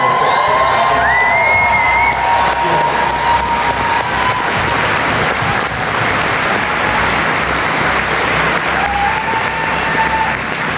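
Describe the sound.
Audience applause and cheering at a speech on equality in Canada: dense, continuous clapping fills the whole stretch, with scattered whoops and shouts rising above it and a few voices in the crowd.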